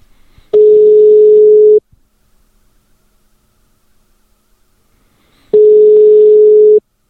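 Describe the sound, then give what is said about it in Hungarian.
Ringback tone of an outgoing phone call: two long, steady beeps of the same mid pitch, each a little over a second, separated by a long silence. “Most pedig hívjuk föl a következő nyertesünket, akit Makó Patriknak hívnak.”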